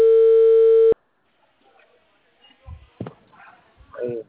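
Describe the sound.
Ringing tone of an outgoing phone call: one steady, loud electronic tone lasting about a second that cuts off abruptly, then quiet and a few brief, faint voice sounds.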